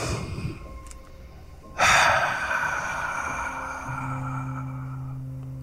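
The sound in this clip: A single deep breath, a sudden airy rush that swells sharply and then sustains, with a low steady tone joining toward the end.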